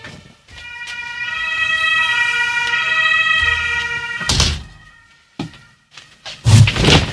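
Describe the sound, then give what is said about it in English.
A fire truck siren wails outside a radio studio next to a fire station, a loud steady tone lasting a few seconds before cutting off, followed by a few dull thuds and knocks. “It is, in fact, quite unfortunate when you have a radio studio located directly next to the fire station. Because if there is a five-alarm fire, then all of the fire trucks roll out one after the other and blow their sirens.”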